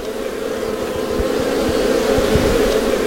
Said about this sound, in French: Ça y est, on s'approche des ruches. Écoutez-moi ça.